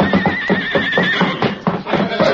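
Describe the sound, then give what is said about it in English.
A horse neighs in a loud, wavering, high-pitched whinny lasting about a second, heard among excited voices in a western drama scene. “Look out, that horse!”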